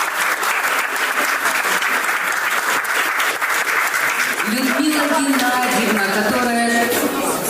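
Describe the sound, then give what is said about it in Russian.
Sustained applause from an audience at a gathering honouring staff, a dense, steady clatter of many clapping hands throughout, with a voice-like tonal sound emerging over the clapping in the second half. “Да, похлопаем.”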